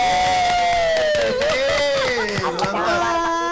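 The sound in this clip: Lively crowd noise at an RRI radio event: continuous cheering and shouting voices mixed with chatter, with a sustained tonal voice weaving through. It stays loud and dense for the whole few seconds.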